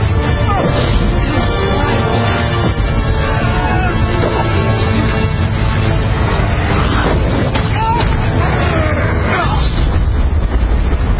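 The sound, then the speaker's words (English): A dragon's deep rumbling crash, heavy enough to be taken for an earthquake, rolls on as a loud, continuous booming roar for the full length without a break. “Was that an earthquake? That, my lad, was a dragon.”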